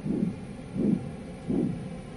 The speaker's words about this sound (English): So now we're going to start hearing the sound of your heartbeat.